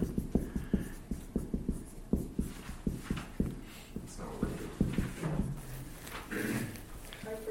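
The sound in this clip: Writing on a board during a class: many scratchy strokes and sharp taps in a quick, uneven rhythm, steady and moderately loud, with a faint voice at times.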